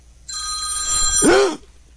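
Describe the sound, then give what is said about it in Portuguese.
A phone ringtone sounds for an accidental incoming call: a steady electronic tone held for about a second, ending in a brief swooping chirp before it cuts off. “A mulher ligou, ligação perdida, sem querer.”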